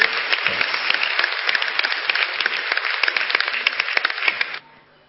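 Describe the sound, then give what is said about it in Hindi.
An audience at a research talk applauds loudly: dense, steady clapping for about four and a half seconds, then stopping abruptly. “आप तालियां जरूर बजाना, मेरे लिए तालियां नहीं भाई जी, हां जोर से तालियां बजाइए।”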